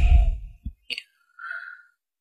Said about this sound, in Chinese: 因为我们呼气的时候是用口嘛，口往外呼气嘛，吹，